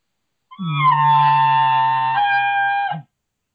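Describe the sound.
Human voice imitating an older bull's moaning bugle: one sustained, low, droning tone with rich overtones lasts about two and a half seconds, with a slight catch near the end before it cuts off.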